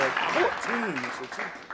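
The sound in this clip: Comedy club audience applause, a broad, steady patter of clapping running beneath a speaking voice throughout.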